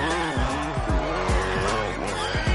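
Tires squeal and an engine revs as a motorcyclist spins in an action film scene. A continuous, loud skid runs under repeated rising engine whines.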